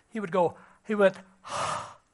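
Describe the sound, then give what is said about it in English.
A long, airy exhale in a single steady breath, performed by a speaker to demonstrate Christ breathing on his disciples. Two short voiced vocal sounds come before it. “Christ, upon that occasion, gave a demonstration of the Spirit. He breathed on them. It wasn't unusual for prophets to do that.”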